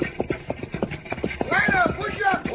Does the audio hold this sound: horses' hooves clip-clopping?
yes